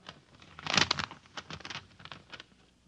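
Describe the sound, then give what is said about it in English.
An envelope being torn open, with a burst of crisp paper tearing and crinkling followed by softer rustles and crackles that trail off. “Now I open the envelope.”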